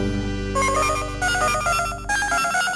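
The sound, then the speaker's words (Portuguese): A telephone ringing with a melodic ringtone: loud, steady repeating electronic tones that step between a few pitches, with no talk. “Eu não vou atender! Não atendo, não atendo, não atendo. Vai ter que ligar a noite inteira, eu não atendo.”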